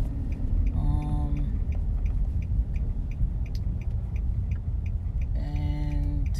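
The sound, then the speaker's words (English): From inside a car driving out of a neighborhood, a steady low rumble runs throughout. A regular ticking sits over it, and two short tonal chimes sound, one near the start and one near the end. “I'm just trying to drive out of my neighborhood and get to the gas station.”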